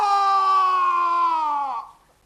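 A person screams, giving one long, loud, strained cry that holds steady, dips in pitch near the end, then breaks off and leaves near silence.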